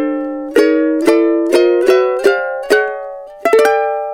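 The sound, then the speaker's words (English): Guitar chord strummed repeatedly while sliding chromatically up the fretboard, one fret at a time. Several bright, ringing strums fall at a steady pace with the pitch stepping upward, ending in a quick double strum, played alone with no talk. “I'm just going to slide this one until it becomes this one. And this is going to be a real fancy ending now. It's going to sound like this.”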